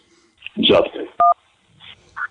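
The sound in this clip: A touch-tone keypad press accepts an incoming call: one short, steady two-tone beep sounds cleanly between stretches of voice prompts and talk.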